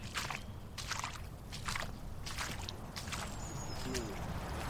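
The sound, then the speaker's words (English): Footsteps squelch across wet, muddy ground in a Thameside field beside a river, a series of soft, wet bursts over a constant background hiss. “We're going to squelch back across a couple of miles of squelchous land.”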